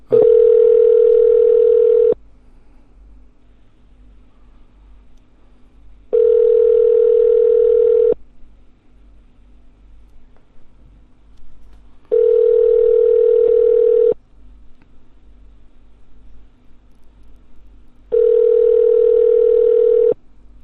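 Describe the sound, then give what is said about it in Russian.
Telephone ringback tone after dialing a number: four long, steady mid-pitched tones of about two seconds each, separated by roughly four-second gaps with a faint low hum between. “Набираю на второй номер.”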